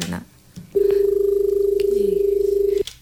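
Steady telephone line tone as a caller's phone call connects. A single sustained, lightly pulsing tone lasts about two seconds and ends abruptly, after a few brief clicks and faint noises.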